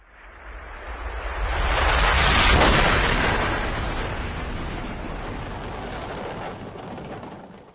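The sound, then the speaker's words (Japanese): A deep rumbling blast at the foot of Mount Fuji swells to a loud peak over a couple of seconds, then slowly decays into a long, noisy roar. “第2グループ富士山麓爆破。”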